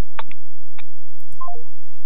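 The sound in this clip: Electronic telephone tones of an incoming call to a studio: a few short beeps, then a quick run of three pure tones stepping downward in pitch, clear and alone with no voices.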